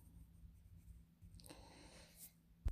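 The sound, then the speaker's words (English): A pen scratches faintly across paper as something is written down, soft and uneven, ending in a short, louder knock. “I'm gonna write it down.”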